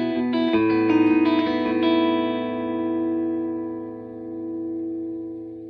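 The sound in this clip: Electric guitar played through the clear bridge pickup of a Telecaster fitted with a La Brea pickup set: a few picked chords in the first two seconds, then a bright sustained chord rings and slowly fades, with no talk.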